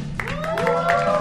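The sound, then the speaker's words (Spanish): Studio audience applauding in a short burst, with scattered claps and a few high, sliding vocal whoops mixed in. “Conmigo está el señor Javier Medina y un público que suena así.”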